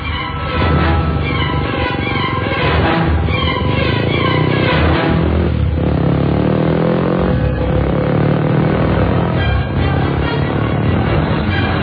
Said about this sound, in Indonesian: Tanpa pikir panjang, aku pun langsung menancap gas.